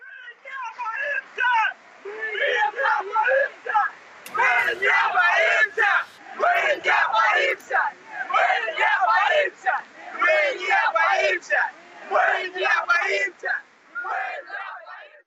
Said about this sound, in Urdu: Saint Petersburg میں بھی احتجاج ہو رہا ہے، جہاں مظاہرین پولیس کے سامنے ہم نہیں ڈرتے کے نعرے لگا رہے ہیں۔